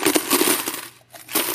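Many coins poured into a bucket, a large gift of about a thousand dollars: a dense, loud cascade of jingling metal that thins out briefly near the middle, then resumes.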